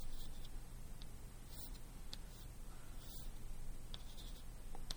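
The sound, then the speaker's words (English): Chalk scratching on a board as a physics lecturer draws a diagram of an electron and a nucleus: a series of short, dry, scraping strokes and taps, faint and without any talk. “Okay, I can draw a similar diagram.”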